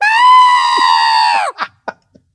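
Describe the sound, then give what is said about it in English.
A human voice imitates a rabbit's last scream of pain on a vet's table: a loud, high, sustained shriek lasting about a second and a half, its pitch sagging at the end, then a few brief, quieter sounds. “Yeah, that scream was the last scream of pain from the rabbit.”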